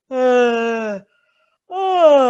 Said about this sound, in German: das sind schon erste Toning-Klänge. Das ist die erste Phase vom Toning, wo es ins Entspannen geht, wo der Körper durch Klang in die Erleichterung findet.